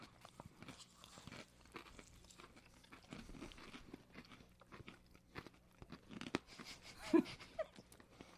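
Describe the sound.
Crunchy pretzels being bitten and chewed, giving many quiet, dry, crisp crunches in an irregular rhythm with no talk.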